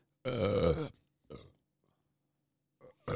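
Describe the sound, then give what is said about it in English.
A burp: one loud, throaty belch lasting under a second, followed by a couple of shorter, fainter grunting sounds, with no talk. “You got all the burps out?”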